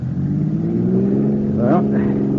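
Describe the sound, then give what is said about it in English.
A car engine accelerates, a steady droning hum whose pitch climbs gradually and then jumps upward near the end as the throttle opens. “Go on, give it the gas.”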